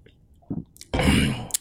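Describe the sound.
A speaker with a cold takes a sip of a drink: a short, soft wet sound, then a longer, louder slurp and swallow, ending in a faint click.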